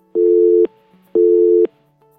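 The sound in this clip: Telephone busy signal: two steady, loud tone bursts of equal length, separated by an even silent gap, heard alone.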